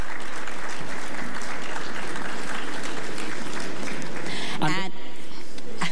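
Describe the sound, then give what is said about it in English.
Loud, sustained audience applause for the delegates of a Beauty and Intelligence pageant at the National Cultural Center, a dense wash of clapping that holds steady throughout, with a brief sweeping tone near the end. “Please put your hands together for our delegates that are with us this evening.”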